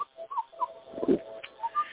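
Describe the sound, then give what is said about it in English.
Faint chirps and whistles of a pet bird: a few short, tonal calls scattered across low background noise. “I love the bird songs.”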